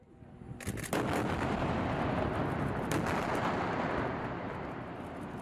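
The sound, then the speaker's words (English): Explosions and artillery fire from a nightly bombardment of Gaza form a dense, continuous rumbling roar. Sharper, louder blasts break through near the start and again around the middle. “That was the sound of near constant nightly bombardment of Gaza over 11 days.”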